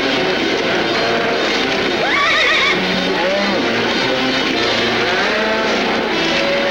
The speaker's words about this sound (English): A herd of longhorns breaks through the fence.